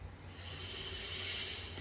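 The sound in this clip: A slow, deep breath drawn in during a guided relaxation exercise: a soft, airy rush that swells gradually toward the middle and holds, faint and alone with no talk.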